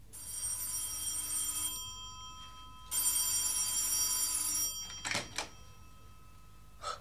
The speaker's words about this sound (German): Nachts um 2 etwa schreckte mich das Telefon aus dem Schlaf.